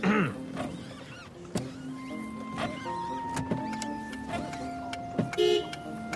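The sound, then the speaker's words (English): Car windshield wipers switched on, producing a motorized whine with rubbery squeaking sweeps and several sharp clicks, alone without voices. “He turns on the wipers. Yeah, I don't think you need the windshield wipers.”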